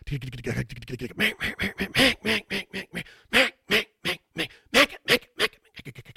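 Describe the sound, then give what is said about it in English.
Duck call blown to mix quacks with drawn-out lonesome hen calls, imitating a flock of ducks on the water; many loud, rhythmic quacking blasts in rapid strings, heard alone without talk. “You can mix in some lonesome hens, some quacks, and then a couple strings of greeters.”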